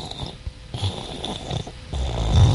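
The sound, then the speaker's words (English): A voice imitates a cat breathing as it sleeps, like heavy snoring: rough, throaty, snore-like breaths come in a few uneven pulses and grow louder toward the end. “it tends to make you breathe like a cat. You know how a cat, when it's sleeping, go. And fat people just go.”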